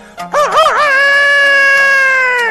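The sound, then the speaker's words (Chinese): A loud rooster crow from a household chicken: a wavering, warbling onset settles into one long sustained harmonic cry that holds to the end. “有的个别家哎还养活了两只鸡，这两只鸡也不搅闷，天天打鸣”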